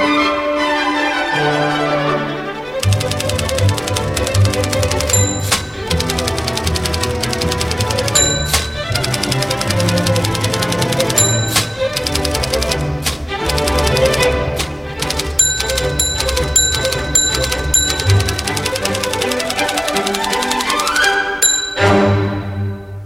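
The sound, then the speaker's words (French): A typewriter played as a percussion instrument inside a music piece: loud, steady clacking keys set against a full musical backing, with bright bell dings recurring throughout. “Mais on peut aussi transformer la machine à écrire en instrument, devenir un virtuose percussionniste de la machine à écrire.”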